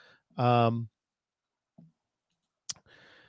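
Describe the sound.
A single sharp computer mouse click, crisp and brief, set between stretches of talk as a route recalculation is started in trip-planning software.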